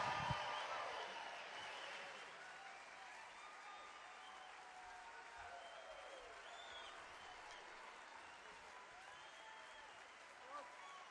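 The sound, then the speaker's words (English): Crowd applause welcomes two musicians onto the stage at a live concert, a sustained dense clapping with some crowd noise that holds steady throughout and eases slightly toward the end. “Welcome to the stage, Peter Rowan and Jerry Douglas. Give them a big hand.”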